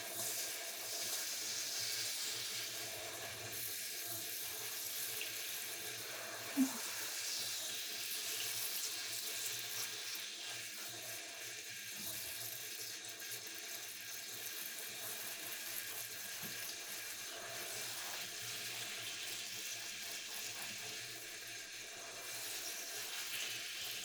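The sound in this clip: Hot water runs from a tap, filling toward a comfortable heat. A continuous, even rush and hiss of flowing water goes on throughout at a fairly low level, with no voices.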